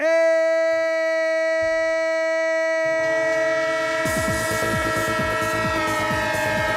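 Train horn sounding a long, sustained chord throughout, joined by a low rumble of a train partway in and then a fast, rhythmic clickety-clack of wheels on rails beneath the horn.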